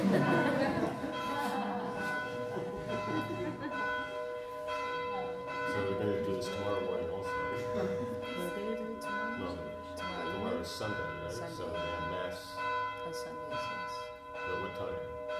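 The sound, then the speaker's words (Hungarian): Church bells ring continuously, their overlapping tolls forming a loud, sustained wash of ringing tones with repeated strikes throughout. “most miért harangoznak, és lehet, hogy azért harangoznak olyan sokáig, hogy egy idő után már annyira bosszant, hogy nem tudod tőle nézni a tévét, vagy hallgatni a zenédet, hogy inkább bemész a templomba.”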